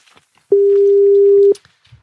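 A telephone ring tone on an outgoing call, a single steady, even tone lasting about a second, clear and alone between near silence.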